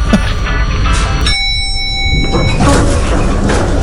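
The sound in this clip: Elevator sound effect: a bright, steady chime of several sustained tones held for just over a second, set in the middle of continuous background noise.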